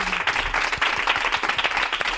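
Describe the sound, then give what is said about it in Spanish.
Applause breaks out as two guests are welcomed, with dense, loud, continuous clapping from many hands. “¡Un aplauso para ellas!”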